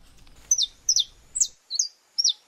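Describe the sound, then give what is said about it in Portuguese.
Saffron finches singing: five short, high chirps, each sliding downward, spaced evenly and heard clearly on their own. “Liberdade para cantar, voar e viver na natureza. É o que o Instituto Brasileiro do Meio Ambiente e dos Recursos Naturais Renováveis, o IBAMA, quer devolver a 300 pássaros da espécie canário da terra,”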